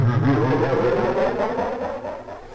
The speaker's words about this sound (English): Are you playing a racing game? I am, yeah. I'm playing Gran Turismo 2. Oh, cool. That's a PlayStation 1 classic.